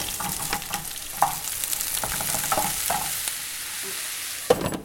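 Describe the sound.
Ginger and scallion sizzle in hot oil, a steady bright hiss broken by a few sharp stirring scrapes and clicks, with one louder strike near the end and no talking.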